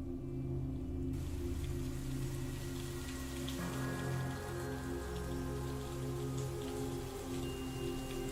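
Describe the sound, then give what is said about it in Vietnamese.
A sudden out-of-season downpour makes a dense, even hiss of raindrops, quiet and continuous with no break. “Tiếng sấm sét đì đùng, cơn mưa trái mùa ầm ầm đổ xuống bất chợt.”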